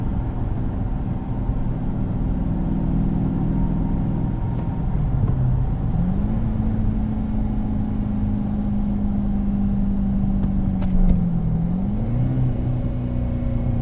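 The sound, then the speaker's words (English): Car engine downshifting while approaching a stoplight: a steady low engine drone that twice climbs briefly to a higher pitch, first near the middle and again near the end, then settles into a level hum. “We're going to come up to a stoplight in a moment, and I'm going to do some downshifting too.”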